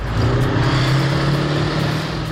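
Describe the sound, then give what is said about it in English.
Engine of an old Warrior armoured vehicle driving laps around the arena at an annual tank festival in Dorset: a loud, steady, low rumbling drone that holds level throughout, with no voices. “Opening the annual Tank Fest celebration in Dorset, Warrant Officer Bahari drove laps around the arena in his old workhorse Warrior.”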